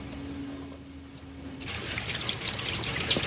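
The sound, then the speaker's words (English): Running water as someone washes up: a soft, faint trickling stream begins after a quiet start and carries on steadily to the end. “Let me wash up. I'll be right there.”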